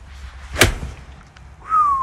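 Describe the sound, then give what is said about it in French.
A golf club swings and strikes a ball with a single sharp, loud crack, followed after a pause by a thin, steady whistle-like tone. “Alors moi, je me suis essayé au swing, et c'est là qu'on voit qu'il y a tout un tas de paramètres à gérer.”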